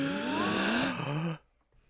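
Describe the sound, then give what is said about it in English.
A man draws a deep, noisy breath that is partly voiced, with a tone that glides slightly upward for over a second before cutting off into near silence. “let's go ahead and take a big breath right now.”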